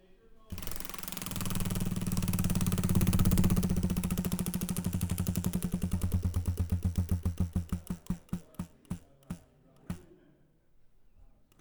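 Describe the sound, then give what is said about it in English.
A prize wheel spins with a fast, dense clatter of clicks that gradually slows to distinct, spaced ticks before stopping. “Well, let's spin that wheel then.”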